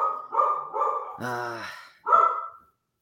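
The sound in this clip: A dog barks loudly in a few short, sharp barks followed by a longer, drawn-out cry and one more bark.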